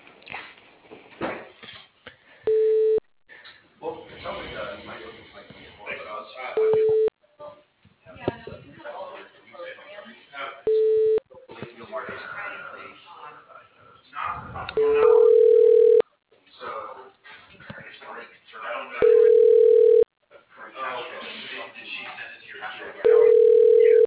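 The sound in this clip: Telephone ringing tones while a call is transferred to voicemail: six steady, evenly spaced tones, the later ones a little longer, sounding over continuous muffled talk and background noise.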